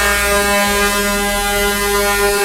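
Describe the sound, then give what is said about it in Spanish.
A truck air horn worked by a pull cord blares in one loud, sustained, steady multi-toned blast that fills the whole clip without a break. “Uy, suena largo. Los pitos que yo tengo aquí.”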